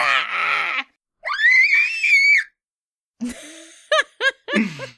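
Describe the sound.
A voice imitates the high-pitched scream of a human-sized, dragon-like creature made of ash and smoke rising from a rift: loud screeching bursts, including a long sustained wavering shriek, then several short sharp cries.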